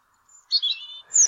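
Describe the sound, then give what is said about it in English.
European robin song: a few brief, thin, high-pitched chirps and warbled phrases, separated by short gaps, fairly clear against a quiet background. “This is a European robin.”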